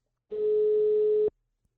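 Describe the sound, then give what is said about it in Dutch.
A single steady ring-back tone from an outgoing telephone call to a film theater in Zaandam: one clear, mid-pitched tone lasting about a second, then silence. “En daarom ga ik vandaag bellen met Katrien Lamers van De Fabriek, het filmtheater in Zaandam.”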